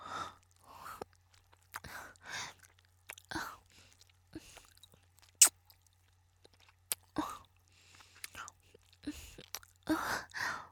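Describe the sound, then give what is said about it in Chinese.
Eating and sucking on a large ice pop: many short, wet slurping and chewing bursts with a few sharp clicks. The sounds come in quiet, irregular clusters, with soft breathy vocal noises between them. “冰棍前端被我含的化出来了一些粘液，不知道是不是糖浆啊。”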